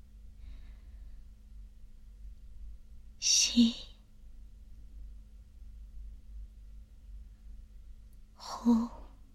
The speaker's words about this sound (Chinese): 吸气，呼气。